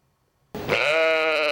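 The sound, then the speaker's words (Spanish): A single sheep bleat from a cloned sheep: it starts abruptly after a brief silence and is held as a steady, nasal, tonal cry, loud and alone. “Esta es Dolly, la oveja más famosa de la historia, el primer mamífero clonado a partir de una célula adulta.”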